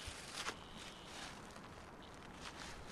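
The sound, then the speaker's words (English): Footsteps crunch along a gravel road in Chatham, Virginia, a few faint, gritty steps at an even walking pace over a low outdoor hiss. “He's walking down a gravel road in Chatham, Virginia, about 20 miles from the North Carolina border.”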